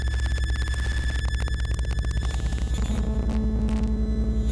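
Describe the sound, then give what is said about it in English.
Electromagnetic noise picked up by a hypersensitive listening device: a dense, steady electrical hum and buzz with layered tones and rapid pulsing ticks, then a higher steady tone joining partway through. “I can listen to all the electromagnetic noise that surrounds me.”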